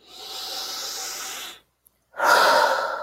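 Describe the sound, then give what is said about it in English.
Two deep breaths taken during a guided tapping exercise, each a long, airy rush of breath lasting over a second, separated by a brief silence, the second one slightly louder, with no talking. “Big, deep breath.”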